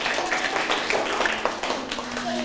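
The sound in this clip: Children clapping for a classmate who gave a right answer, a continuous patter of many small hands with faint voices mixed in throughout.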